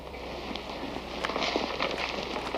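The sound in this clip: Footsteps of someone walking up stairs: a few soft, scuffing steps over a steady background hiss and low hum.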